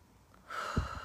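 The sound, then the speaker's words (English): A deep breath during a guided breathing exercise, heard as a breathy rush of air that starts about halfway through and holds steady to the end, with a soft low puff near its peak. “And as we take these beautiful deep breaths”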